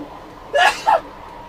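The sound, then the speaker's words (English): A sneeze from a person with mild allergies and hay fever: a sharp, breathy burst in two quick parts, rising out of a quiet background. “Gesundheit. Sorry about that. I have mild allergies and hay fever, so there you go.”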